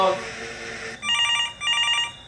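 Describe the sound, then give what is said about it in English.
A telephone ringing: two bright electronic ring bursts with a short gap between them, coming in right after a stretch of voices. “Oh, the phone's ringing.”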